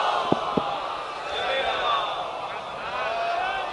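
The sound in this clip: A large crowd chants a loud religious salawat slogan during a sermon, a dense, sustained roar of many voices that carries on throughout, with two brief sharp knocks near the start.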